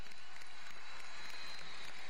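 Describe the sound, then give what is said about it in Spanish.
Faint, steady applause for Zulia at a public event with the president, a soft continuous wash of clapping with no clear peaks across two seconds. “Un aplauso al Zulia, un abrazo al Zulia desde aquí.”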